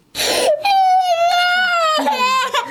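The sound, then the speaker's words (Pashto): A small child cries loudly, starting with a short breathy sob and moving into a long, high, sustained wail. The wail breaks briefly near the end, then another cry follows. “الیاس دی راپور لري چې د یوه کوچني په ږغ پیلېږي.”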